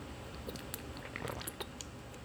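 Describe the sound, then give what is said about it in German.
Drinking still water: faint wet mouth clicks and small swallowing sounds, scattered and quiet over a low steady background. “versuche, was habe ich denn hier, 0,5 während des Podcasts auszutrinken. Das muss zu schaffen sein. Normales, stilles Wasser. Prost!”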